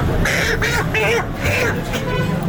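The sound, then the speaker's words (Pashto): Farm chickens squawk at a poultry shop in Peshawar's Saddar market. Several loud, harsh calls come in a quick, uneven string over a steady murmur of background noise. “دا اوازونه په پیښور صدر کې د فارمی چرګانو پر دکان کې دي.”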